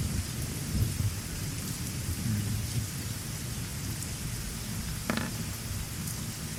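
Heavy rain and thunder used as background ambience for a tabletop role-playing game: a steady, dense downpour hiss with low rumbling underneath and one sharper crack near the end, with no voices.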